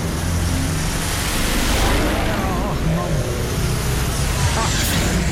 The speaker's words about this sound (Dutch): Dan hoor je even een paar V8'en voorbij komen.